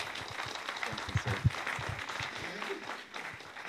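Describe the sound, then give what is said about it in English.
Audience applause welcomes speakers to a church pulpit. A steady, fairly soft wash of many hands clapping runs throughout, with a few louder claps standing out. “I want you to just put your hands together and welcome them to the pulpit tonight.”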